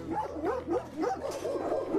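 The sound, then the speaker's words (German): Dogs bark and yip in the kennels of an animal shelter in Cologne: many overlapping, high, shrill barks come in steady bursts throughout, with no pause. “Mit Hester Pomeräning ging es jetzt vorbei im Köln-Zollstocker Tierheim an den Hundezwingern. Die kannten uns nicht, haben keine Ruhe gelassen.”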